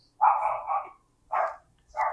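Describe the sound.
Dog barking during an interview with songwriters: three loud, full barks. The first is longer and drawn out, and the next two are short and come close together.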